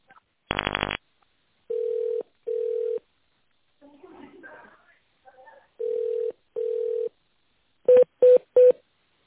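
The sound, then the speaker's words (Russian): Telephone keypad tones dial an extension in tone mode on a company phone line. Pairs of steady electronic beeps sound, with a brief muffled burst between them, ending in three short, quick tones. “Наберите внутренний номер абонента в тональном режиме или дождитесь ответа секретаря.”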